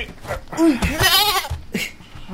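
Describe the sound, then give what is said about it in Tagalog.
A sheep with its feet tied is thrown down and bleats a few times. The bleats are loud and wavering, and a long quavering cry in the middle is followed by a shorter one. “Bakit mo naman inihagis ang tupa ko? Nakatali pa ang mga paa.”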